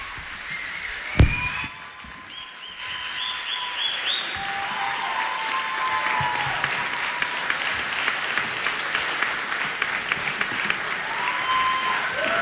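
Audience applause for a big band at a music competition, a dense and sustained clapping that begins with a sharp, loud burst and then settles into a steady, busy roar.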